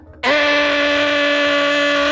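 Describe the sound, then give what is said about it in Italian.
A voice imitates an angle grinder: a sudden, loud whining tone that scoops up in pitch at onset, then holds steady and buzzy for about two seconds. “sai, il flessibile, sì, proprio sopra la testa”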